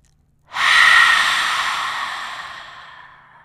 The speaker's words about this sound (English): So let's take a deep inhalation, open our mouth, and release.